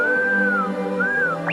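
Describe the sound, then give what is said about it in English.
A robot droid whistles two smooth electronic tones that rise and fall, then a quick upward chirp, over a steady low hum. “What do you mean, R2? That noise is singing, you silly bucket.”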